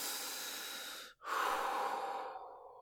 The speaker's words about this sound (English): Deep breaths. Deep breaths. Do it with me. In and out. In and out.